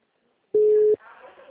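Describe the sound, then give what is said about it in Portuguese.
Single short, steady, mid-pitched telephone busy beep, loud and alone against silence, followed by a quieter, murmuring voice-like sound. “número está ocupado”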